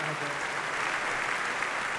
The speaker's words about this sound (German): vielen Dank für den Applaus